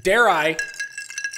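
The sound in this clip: Ice clinking in a glass, heard as a few bright, ringing clinks after a brief spoken remark.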